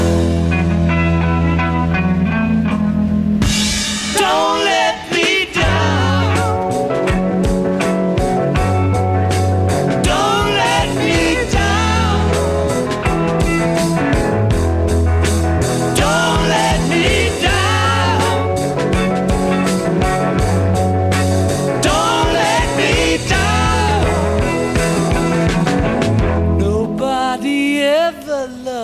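A rock band song plays loud and steady, with sung vocals over full-band accompaniment and a regular, repeating bass line. The music continues for nearly half a minute.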